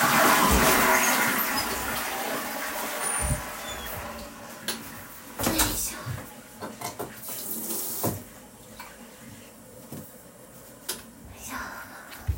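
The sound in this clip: Toilet flushing: a loud rush of water at the start that gradually subsides, with a few clunks and knocks afterward.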